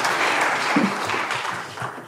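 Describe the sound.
Applause in a church as a speaker is welcomed to the platform: a full, even stretch of clapping with a few duller thumps mixed in, easing slightly toward the end.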